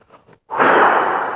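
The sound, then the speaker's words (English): Breath is blown over a crystal to clear it: a long, sustained, breathy exhale that fades slowly. A couple of soft, brief sounds come before it. “And then you can also use breath to clear your crystals. So, for example, you hold the crystal in front of you”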